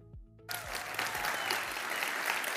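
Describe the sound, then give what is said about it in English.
Applause from the Perrysburg campus church audience as a speaker is welcomed to the stage. Dense, steady clapping swells in after about half a second and stays loud to the end. “So, Perrysburg campus, will you please put your hands together”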